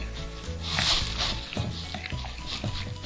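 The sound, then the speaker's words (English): Cake batter stirred in a bowl, with a creamy mix later blended with cocoa, makes soft, wet squishing and squelching sounds in an irregular, moderately quiet rhythm. “So now we are gonna stir it in with the rest.”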